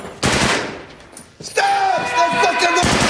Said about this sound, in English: As she crouches down beside him, a Marine shoots her.